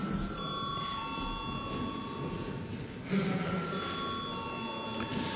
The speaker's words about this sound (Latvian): lūdzu zvanu